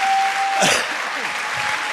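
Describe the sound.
An audience in a hall claps in dense, steady applause, with a voice briefly heard over the clapping.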